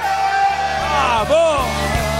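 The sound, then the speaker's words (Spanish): A crowd shouts together on cue: many voices rise at once into a loud, sustained mass of yelling that holds steady for about two seconds. “Atención, a ver si gritan todos juntos para que la gente vea cuánta gente hay.”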